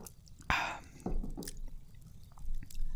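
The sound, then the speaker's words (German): A quick sip from a drink: a few short, wet slurping and swallowing noises, fairly faint and heard alone with no talk. “ich nehme noch einen kurzen Schluck.”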